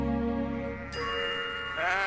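Sheep bleat beside hen houses in a few long, wavering, strongly tonal calls at moderate loudness, with no talk.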